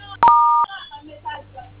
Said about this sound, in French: Évitez de toucher les boutons de votre téléphone.